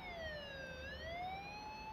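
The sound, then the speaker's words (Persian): Police car siren wailing. Its tone slides down and then sweeps back up, faint over a low rumble of traffic. “گوش کنی؟ بچه ها یه ماشین پلیس.”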